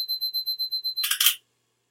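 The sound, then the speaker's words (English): Rapid, evenly spaced high-pitched beeps from a film camera's self-timer, loaded with Ilford FP4 and shooting through colour filters, end in a short, loud burst of noisy clatter. “So let's give that one a tap. Beep, beep, beep. Beep, beep, beep.”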